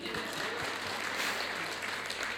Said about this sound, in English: So yeah, sure, round of applause actually.